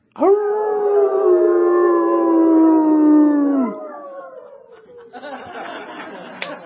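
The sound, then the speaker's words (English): People imitate a wolf howl with one long, loud, steady voiced howl that holds for a few seconds and then drops in pitch at its end, followed by quieter, mixed vocal noise. “Then you do wolf. No, I have a girl voice. All right, let's all do wolf.”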